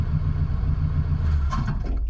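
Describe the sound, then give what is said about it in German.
Low, steady engine rumble from a car that is switched on and trying to pull away but not moving off, a dense continuous drone with no clear rise in revs throughout. “Wie sonderbar. Der Wagen fährt nicht an.”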